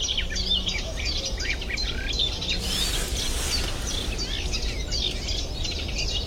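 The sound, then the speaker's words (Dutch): Cetti's warbler singing in a marsh, very loud and close, bursting out in an explosive run of song midway over a continuous bed of high chirping from another warbler singing behind it. “Nu is het een vrij normale soort in moerassen, de Setisanger.”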